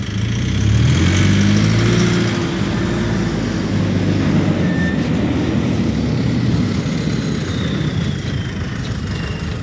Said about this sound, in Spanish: Eso que suena son los camiones entrando al edificio del periódico.